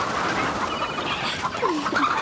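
Clucks from a chicken being chased sound as short, squawky calls over a noisy, rustling background. The calls grow more distinct and frequent toward the end.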